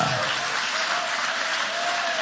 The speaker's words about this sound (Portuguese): podem aplaudir também a Deus com muita alegria